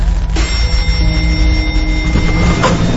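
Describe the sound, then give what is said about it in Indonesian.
An elevator door slides open with a steady mechanical whir and hum, with a soft knock near the start and another near the end, without talk. “pintu lift terbuka. Aku pikir akan ada seseorang yang masuk,”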